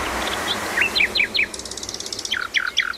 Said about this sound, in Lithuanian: Niekada nenutraukiu paukštelių giesmės.